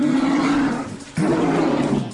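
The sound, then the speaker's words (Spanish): A deep, loud roar like a big cat's, in two long rumbling surges split by a brief dip, with no other sound over it. “Y siente el rugido.”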